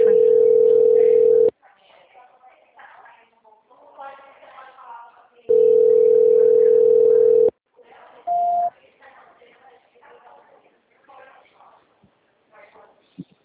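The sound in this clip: A telephone line tone plays while a call is being transferred. Two long, steady, mid-pitched tones are separated by a pause, and a brief higher beep follows the second. People talk in the gaps between the tones.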